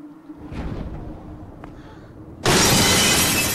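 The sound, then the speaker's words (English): A body crashes onto a glass roof. After a quieter stretch of low rumble, a sudden, loud shatter of breaking glass bursts in and keeps crackling to the end. “She lands on a glass roof below.”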